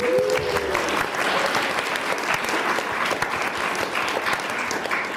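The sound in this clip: Warm audience applause at the Glasgow Science Festival, dense, sustained clapping from a large crowd that stays loud and even throughout.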